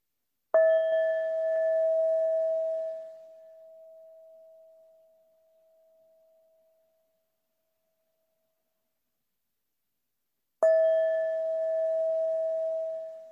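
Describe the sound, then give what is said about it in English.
Bell rung to close a meditation practice: two clear, pure-toned strikes about ten seconds apart, the first ringing out and fading slowly into silence, the second cut off while still sounding. “And in a few moments, I will ring the bells again 3 times to mark the end of today's practice.”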